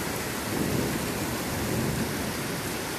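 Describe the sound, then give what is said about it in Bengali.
Thunder during a storm rumbles low and steady beneath a continuous dense hiss of heavy rain, with no voices. “আমিও এই বজ্রপাতে একটু ভয় পেয়ে গেলাম।”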